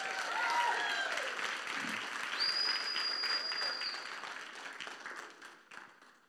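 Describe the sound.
Applause from a church audience welcoming a couple onto the stage: steady, dense clapping that holds for about six seconds, thinning slightly toward the end.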